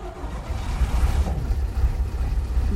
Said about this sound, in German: Ich starte das Schiff.